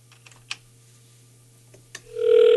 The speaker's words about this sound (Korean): 신호 갑니다.